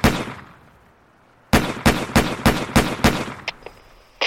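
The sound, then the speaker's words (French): Gunfire outside a bank as the police chief shoots at robbers leaving it: one sharp report, a pause, then a rapid string of loud shots followed by a couple of fainter ones. “Et quand ils arrivent, au lieu de prendre les gars qui sortent de la banque et de les filer, le patron de la BRB leur tire dessus.”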